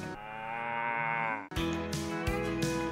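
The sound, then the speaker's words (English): A cow moos twice in a row, a long, loud, rich bellow that sinks in pitch before breaking off, followed at once by a second sustained, buzzy moo. “Yeah, the old cow there, mooing away.”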